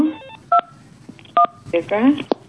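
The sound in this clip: Telephone keypad tones while dialing a number: two short, loud, pure dual-pitch beeps about a second apart. A voice speaks briefly near the end.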